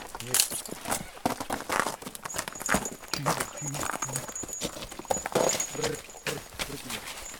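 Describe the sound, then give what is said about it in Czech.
A horse, a breeding stallion used for hauling timber, steps out of a trailer with many irregular hoof thuds and clatters on the floor and ramp, uneven in loudness and rhythm. “Tak a teď se nám tady z přívěsu objevil kůň.”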